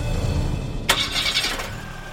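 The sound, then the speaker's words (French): Camper van engine starting: a low rumble, then the engine catches with a sudden loud burst and settles into a steady running hum. “démarra alors le moteur du combi.”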